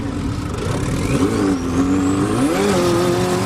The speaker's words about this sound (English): Sand Jaws boasts a wide 130-inch wheelbase. It's basically a metal cage on wheels, which makes it a heck of a lot lighter than your average Honda, and a lot faster.